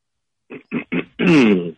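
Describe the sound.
A caller clears their throat: three short, gruff bursts followed by a longer, rasping voiced rumble that trails off.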